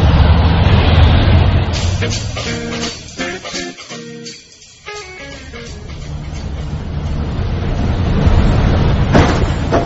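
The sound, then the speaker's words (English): A car bumper strikes a parking meter: a steady engine rumble runs throughout, with a cluster of sharp clattering knocks early on before the rumble carries on. “The bumper just hit the parking meter.”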